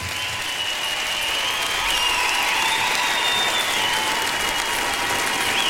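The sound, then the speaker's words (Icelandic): Sustained applause for singers and a band at the close of a rock tribute concert in Silfurberg hall at Harpa, a steady, dense wash of clapping that holds at an even level throughout. “Gefðu þessu listafólki dúndrandi lófatak”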